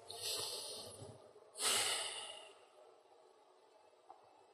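Deep breaths are drawn by a group asked to breathe together, heard as two airy hissing rushes of air. The second is louder and fuller, then a quiet near-silent stretch follows with one faint click.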